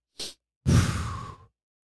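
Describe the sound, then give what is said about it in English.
A person demonstrates the dragon breath yoga technique, which is likened to Lamaze breathing. A short, sharp breath comes first, then a longer, forceful, breathy exhale that gradually tapers off. “The one that I was using was the dragon breath, where you go. So it's almost like a chick in Lamaze.”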